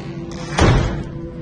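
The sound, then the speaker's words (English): A wooden door by the cabinets swings shut with a single dull thud midway through, heard alone over a low steady hum; no clear creak stands out. “The wooden door by the cabinets creaks open as she approaches, then suddenly swings shut. Then it begins to swing open again.”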